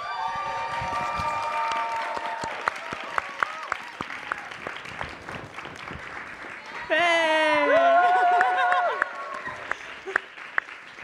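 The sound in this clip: An audience at a live show claps and cheers to welcome two special guests. Scattered claps sound under talk, then a short, louder burst of cheering and whoops rises before settling back to light applause.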